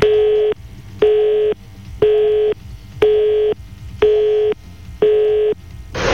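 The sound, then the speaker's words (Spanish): Telephone tones sound on the line: six steady beeps at one even pitch, each about half a second long, repeating once per second with short gaps of quiet between them. “Ay, no. Fue el teléfono.”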